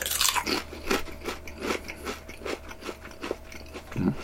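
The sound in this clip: Crunching and chewing of ketchup-flavoured Pringles potato chips: many soft, regular crunches, faint overall, over a steady low hum and with no talk.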